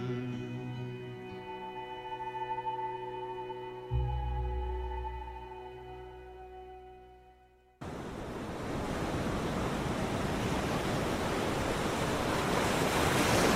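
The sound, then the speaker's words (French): Sea waves surge in a dense, steady wash of noise as a boat heads back into port. The waves take over abruptly after fading music and a low drone, holding strong and even to the end. “écoutez cette mer. Et oui, nous rentrons au port.”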